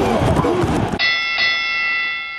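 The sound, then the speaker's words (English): A single bright bell ding strikes after a short burst of noisy sound, then rings on as a clear, sustained tone that slowly fades. “I was ringing the bell.”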